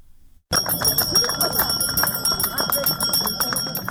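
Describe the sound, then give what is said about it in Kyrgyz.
A school handbell rings to mark the first day of school, struck in a rapid, steady run of bright metallic clangs with a sustained high ring, sounding loud and continuous over voices in the background. “Биринчи коңгуроону шыңгыратып аткан”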